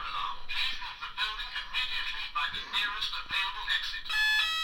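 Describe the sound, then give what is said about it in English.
A fire alarm goes off in a room on a safety test day, a shrill steady electronic tone that rises out of murmuring voices near the end. “That's the fire alarm in my room.”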